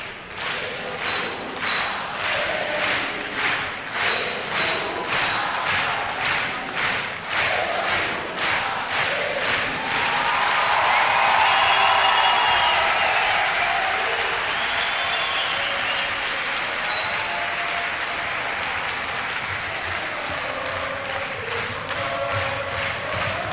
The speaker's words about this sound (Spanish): sin poder ver a sus bandas favoritas, los fans se manifestaron con estas canciones. El público argentino.